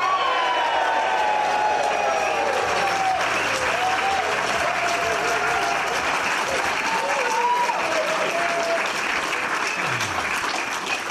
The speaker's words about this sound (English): we are live at Sheffield Hallam University Stoddart Building in front of a live audience, as you can hear